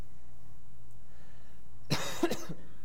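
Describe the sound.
Cough and throat clearing from a scratchy throat: a short, rough burst of two or three harsh hacks over a low, steady background hum.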